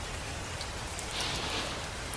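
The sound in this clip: Rain falling on a garden, a steady soft hiss of many drops with no breaks and no voices.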